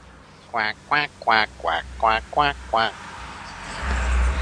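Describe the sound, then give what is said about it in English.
A human voice imitates ducks quacking with seven short nasal quacks in a steady rhythm, followed by a rising low rumble. “let's see if I got all my ducks in a row here. We got quack, quack, quack, quack, quack, there. Quack.”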